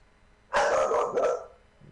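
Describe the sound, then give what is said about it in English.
Dogs bark in a short, loud burst of about a second, two rough barks running together and then falling back to near quiet. “Dogs again.”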